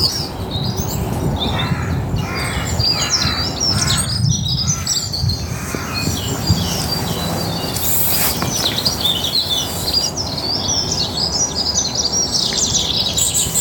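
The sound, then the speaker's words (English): Forest ambience is filled with birdsong: many overlapping chirps and tweets, with some harsher caw-like calls, over a steady, rustling background. “So here's time to record, time to record the first forest sound.”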